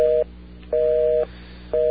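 Telephone busy signal: a steady two-tone electronic beep pulsing on and off in an even, loud cadence, with three bursts separated by short silences, and no voices.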